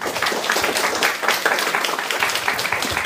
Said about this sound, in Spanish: Les pido un aplauso para mi buen amigo Beto Calvo